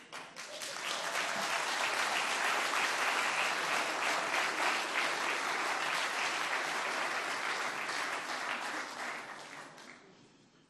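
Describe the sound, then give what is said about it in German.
An audience applauds in a dense, steady clatter of many hands. The clapping swells quickly, holds evenly for several seconds, then fades away at the end. “Und der Applaus war wichtig.”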